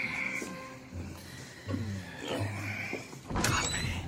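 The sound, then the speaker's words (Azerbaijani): Door sounds, a few scattered knocks and a creaking slide over a low background hum. “Qapı.”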